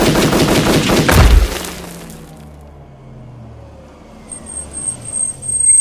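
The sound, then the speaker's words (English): Machine-gun fire bursts out in a rapid, loud volley lasting over a second, then dies into a low, fading rumble, with a thin high whine appearing near the end. “Yeah, machine gun for you, bitch.”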